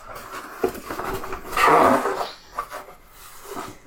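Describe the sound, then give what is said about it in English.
A box is grabbed and popped open: rustling handling noises with a louder scraping burst midway, then a few lighter knocks and shuffles, with no voices. “So how about you grab that box, pop it open, spin the wheel”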